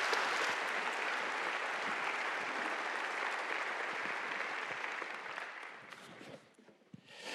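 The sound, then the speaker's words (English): A church audience applauds to welcome a guest speaker to the pulpit at a morning service, with sustained, dense clapping that thins out and fades away toward the end. “Let's put our hands together and welcome him to our pulpit this morning.”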